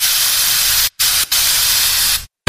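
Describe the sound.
Axe Black deodorant hisses loudly from an aerosol can in three bursts: a long spray, a brief one, then another long steady spray before it cuts off.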